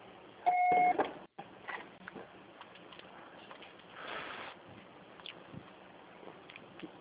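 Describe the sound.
A single loud, steady electronic voicemail beep signals the start of recording, lasting about half a second over a low hiss of line noise. A brief dropout follows, then faint background noise continues.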